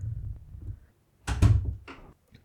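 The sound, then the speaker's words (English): A door is opened: a low rumble gives way to a pair of heavy wooden thuds, then a lighter clack as it swings, with a faint tap after. “Could you just fucking open the door?”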